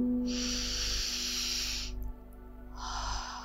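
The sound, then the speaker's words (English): A deep breath drawn in during a calming visualization exercise: a long, soft airy hiss over a steady sustained musical drone, then a second shorter breath near the end. “Deep breath in.”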